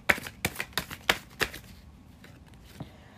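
Playing cards are shuffled and drawn, giving a quick run of about six crisp papery snaps in the first second and a half, then quieter rustling and one faint final flick.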